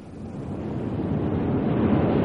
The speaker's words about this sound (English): It's the tide. It comes in faster than an express train.